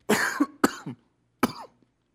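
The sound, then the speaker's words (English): A pastor coughs during a sermon: three harsh, loud coughs, two in quick succession and a third after a short pause, each ending in a throaty catch, with silence around them. “See, I said no to water, and now I got a cough.”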